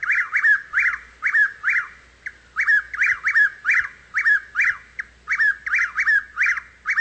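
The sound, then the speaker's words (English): A Chuck-will's-widow sings on a hot night. Loud, rapid whistled phrases repeat many times in a steady rhythm, each a quick run of clipped notes, heard alone with no other sounds. “These are the things I think about as the Chuck Wills' Widow's song becomes desperate.”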